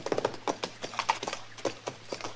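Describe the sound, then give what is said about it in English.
Horse hooves clip-clopping, from a horse with a loose shoe: many quick, irregular knocking hits, fairly quiet, over a low steady hum. “that horse of yours has got a loose shoe, ain't he”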